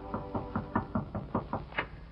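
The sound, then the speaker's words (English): Knocking on a hotel suite door, nine quick, evenly spaced raps of moderate loudness, with no voices. “1 hour later, just 30 seconds after the bride and groom reach their hotel suite, there's a knock on the door.”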